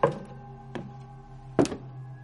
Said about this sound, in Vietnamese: Lục cà lục cục là sao? Cứ như là có cái gì va vào gỗ, hoặc cũng có thể là tiếng người ta đi ở trên sàn.